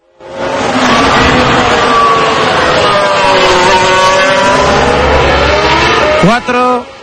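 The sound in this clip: Racing cars roar around the Silverstone circuit in a loud, continuous high-revving engine drone whose pitch wavers throughout. A sharp upward sweep near the end is followed by a brief dip.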